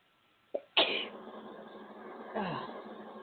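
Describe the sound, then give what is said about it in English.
A single sneeze, a short sharp intake of breath followed by a loud explosive burst that trails off, then a softer breathy sound a moment later. “I'm going to sneeze.”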